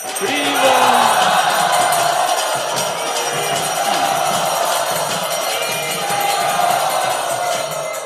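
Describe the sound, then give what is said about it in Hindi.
Loud crowd shouting from a temple audience in Nashik welcoming a guest, a sustained, dense roar of many voices cheering together with no break in the noise. “तो आइए हम सब स्वागत करें भक्ति रसामृत महाराज का नासिक मंदिर में 3 बार जोर से।”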